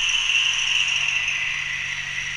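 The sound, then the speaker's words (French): Model CC 72000 locomotive switching on under digital control on a layout, giving a steady mechanical whir with a bright hiss over a low hum, even in level with no distinct events. “Si j'appuie sur 1 pour allumer, on entend bien ma CC72 000 qui s'allume.”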